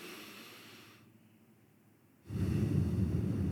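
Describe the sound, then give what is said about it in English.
A slow, deep belly breath is drawn in through the nose: a faint airy hiss, then a quiet stretch, then a louder, sustained rush of inhaled air that holds steady to the end. “as you breathe in, the air comes in through your nose and your belly acts like the bellows on a pump.”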